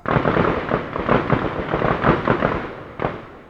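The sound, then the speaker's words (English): Gunfire at a gun range with echo: many rapid, overlapping loud shots that form a dense, continuous barrage, with a sharper crack standing out near the end. “You can probably hear the gunfire in the background of that clip.”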